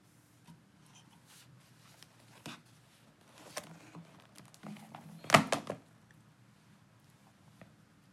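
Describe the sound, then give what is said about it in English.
A box being opened: quiet handling and faint rustles build to a sharper thunk with brief scraping, then fade back to near silence. “I'm going to open the box now.”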